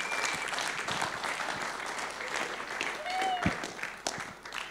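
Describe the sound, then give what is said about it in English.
Audience applause welcomes a speaker to the microphone at a Father's Day gathering: a dense, sustained wash of clapping that stays loud and even throughout, swelling slightly near the end. “So, if you've got a left hand and a right hand, why don't you put them together and let's welcome Marcus to the microphone.”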